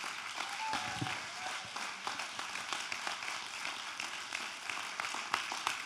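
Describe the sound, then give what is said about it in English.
An audience applauds to welcome a speaker to the stage: a soft, steady spatter of many overlapping claps that lasts throughout. “So, put your hands together and welcome up here, Joanna Herndon.”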